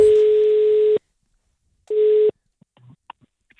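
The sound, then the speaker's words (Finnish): Telephone call tone as someone is rung again: a steady mid-pitched beep lasting about a second, a pause, then a second shorter beep, followed by a few faint clicks and small noises. “Alisa, jolle soitettiin äsken ja soitamme nyt uudestaan”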